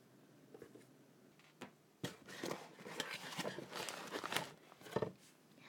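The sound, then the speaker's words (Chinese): Someone opens and unpacks a shoebox holding sneakers: faint crinkling, rustling and tearing arrive in irregular bursts, with a few sharper handling knocks. “这个不是，好，这盒拆开来看看。”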